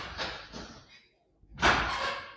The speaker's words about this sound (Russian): Но вы не думаете, что, закрыв дверь, напугаете меня? Что вы? Что вы, я закрыл дверь только ради нашего делового разговора.